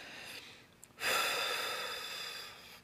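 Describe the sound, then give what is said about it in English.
A person taking one long, deep breath: a loud, breathy rush of air begins about a second in and slowly fades over the next two seconds, with no talking. “Go ahead and just do that right now, right where you're at. Just take a deep breath.”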